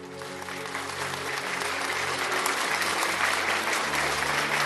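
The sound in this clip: A crowd gives a sustained clapping ovation welcoming a speaker at a prayer gathering. The dense applause holds steady and loud for about five seconds without letting up.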